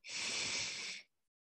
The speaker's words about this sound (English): So I'll go ahead and do it. I'm doing it to you all. And then you want to cover the left and breathe out with the right.